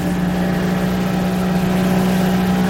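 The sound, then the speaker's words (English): A boat motor runs steadily as the vessel heads out toward a sound, a continuous low droning hum with no clear change in pitch or loudness. “As we motor out towards Hussey Sound”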